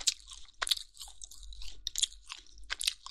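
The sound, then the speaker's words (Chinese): Chewing of chewy, spicy meat: wet, crunchy bites come in a few uneven bursts, fairly soft and close, with no talk. “太好吃了，好有嚼劲啊，嚼给你听听，听到了吗？”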